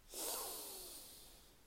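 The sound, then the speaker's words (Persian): A slow, deep inhale through the nose with the mouth closed, during a breathing exercise. The soft, airy draw swells quickly, then tapers gently over about a second and a half. “دهانمون رو میبندیم و از طریق بینی یه دم عمیق”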